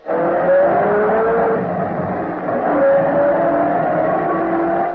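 A car drives off from a ranch house, its engine a loud, continuous mid-pitched hum with slight wavering tones, holding steady throughout with no voices.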